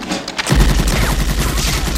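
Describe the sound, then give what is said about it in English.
Tommy gun firing a pattern of bullets into a wall in a film scene: after a short quiet start, a loud sustained burst of rapid automatic shots rattles on to the end. “then turns and grins as he fires a pattern of bullets into a wall.”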